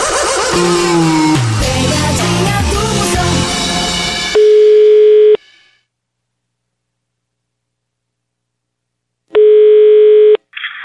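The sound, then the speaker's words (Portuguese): Telephone ringback tones as a prank phone call is placed: after a stretch of loud music, two steady mid-pitched ringing tones of about a second each sound, separated by a long silence. “Vou ligar agora pra Linha, pegadinha clássica.”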